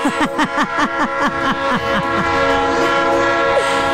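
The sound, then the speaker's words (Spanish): A train passes near Las Américas with its horn sounding in a rapid run of many short pulsing blasts, then settling into one loud, steady sustained blast. “pues si no es el tren que pasa ahí por las Américas, tú.”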